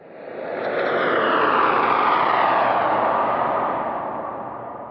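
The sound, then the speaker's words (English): A spacecraft's landing roar, descending toward a gray, rocky surface with barely any atmosphere. It swells from quiet into a loud, broad rushing drone, holds, then gradually eases off, with no voices. “Take us in for a landing”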